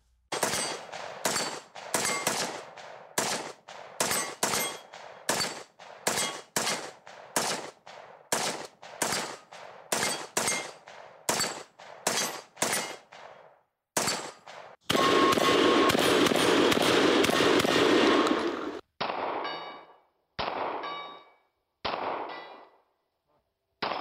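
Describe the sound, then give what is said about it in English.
Gunfire from an AR-15 rifle, a shotgun and a Glock 19 pistol: many sharp, loud shots in a quick irregular series, then one sustained burst of dense rapid fire, then a few spaced shots. No voices. “Now here is a guy shooting an AR-15, a regular old shotgun, and a Glock 19. Here is that. See if you can tell the difference.”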